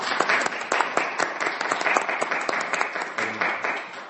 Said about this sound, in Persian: براتون آرزو موفقیت میکنم. به افتخارش دست بزنید.